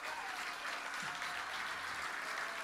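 Audience applause, a faint but steady patter of many hands clapping that carries on without a break throughout.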